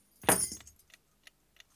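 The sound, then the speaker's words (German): Keys thrown down land in a single short jangling crash, followed by a few faint metallic clinks as they settle, all fairly quiet. “Die Schlüssel müssen Sie selber hergeschmissen haben.”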